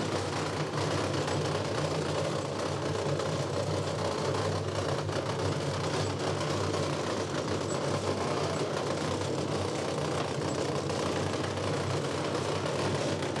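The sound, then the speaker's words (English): An onion cleaning machine removing dirt and sand from onions gives off a continuous low mechanical drone with a rough, knocking texture, steady in loudness throughout and without speech. “Before, the onion has some dirt. Dirt, yes. Okay. So. The sand, yes. Okay. And this machine cleans it.”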